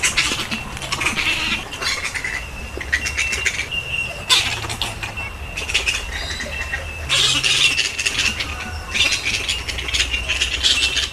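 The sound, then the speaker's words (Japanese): Flying foxes (fruit bats) call along a walking track in a riverside park, a dense, continuous chorus of shrill, squabbling screeches and chatter that swells in loud bursts. “鳥の声かなというふうに思われるかもしれませんけど、これ鳥ではなくてコウモリなんですね。フライングフォックス、日本名オオコウモリと言いますけれども”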